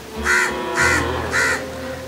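A crow caws three times, harsh and evenly spaced, each call short and loud and standing alone with a faint hum underneath.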